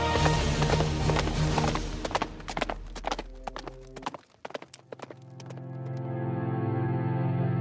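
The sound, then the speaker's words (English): Hurried hoofbeats of a galloping horse, a rapid run of loud clip-clop strikes that thin out and fade, leaving a steady sustained tone. “the people will waken and listen to hear the hurrying hoofbeats of that steed”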